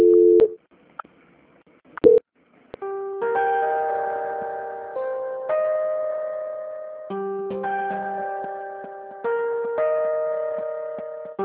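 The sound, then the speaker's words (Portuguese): Telephone call transfer tones sound during a hand-off to a quality-control line: a few short electronic beeps, then a series of held multi-note tones that shift pitch in steps every couple of seconds, with no voices. “Só aguardar em linha, tá? Não desliga não, que eu vou transferir para o controle de qualidade. A ligação vai ficar muda um momento, só um instante. Transferência.”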